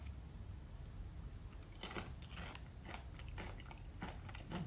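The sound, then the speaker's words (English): Quiet chewing of sweet plantains with dips: many faint, crunchy bites and moist mouth sounds come in an uneven rhythm, mostly in the second half, with no talking. “I'm eating sweet plantains with delicious dips.”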